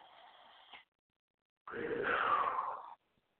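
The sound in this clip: One deep breath is taken during a guided spiritual group call: a soft, airy rush lasting just over a second, coming after a short silence.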